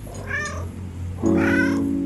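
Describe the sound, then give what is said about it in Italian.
A domestic cat meows twice while rubbing against someone's legs and having its head scratched. The two clear, drawn-out meows are separated by a short pause, with a faint, steady low hum underneath. “Gino miagola e ronfa, strofinandosi contro le gambe di Emmanuel, che gli gratta la testa”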